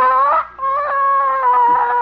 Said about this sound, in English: Must have her own radar system. By George, no hen can intimidate me. I'm going to get that egg.